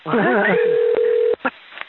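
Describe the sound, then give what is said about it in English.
A telephone plays an automated answering message during a meeting: a brief recorded voice, then a long, steady electronic tone, followed by a few short beeps. “Somebody's got a runaway phone.”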